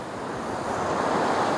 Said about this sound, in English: So connect to the sound of the waves,